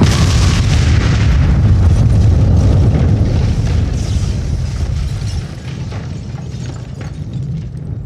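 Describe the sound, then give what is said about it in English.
A propane flamethrower explodes into a plasma fireball, giving a loud, sustained, deep roaring rumble with a broad rushing wash that slowly fades toward the end. “Propane meant that my dumbass firebug probably shot a hole in the flamethrower thing. Once that went up, it reacted with the other ingredients to make a nice plasma fireball.”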